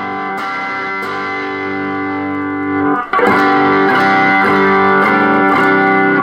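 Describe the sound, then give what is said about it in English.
A Stratocaster electric guitar played through an effects rig rings out in a loud, distorted, sustained chord. After a brief dip, it shifts into a run of rhythmic overdriven strums. “and I'm going to go grab my Strat, and we're going to see what that sounds like through this rig, same settings.”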